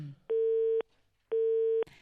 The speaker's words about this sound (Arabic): نتصلوا به باش نعرفوا ايضا حتى الروايه ديالو هو عاوتاني شي. الهاتف دائما مشغول.